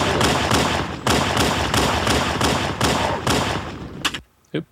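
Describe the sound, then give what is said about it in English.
Pistol gunshots from the video game Halo 1 come as several sharp, loud reports in quick succession, each with a noisy tail. A last brief shot sounds after a short pause of silence. “I'm thinking Halo 1. It could be Reach, but I'll put my money down on Halo 1 pistol. And you would be correct.”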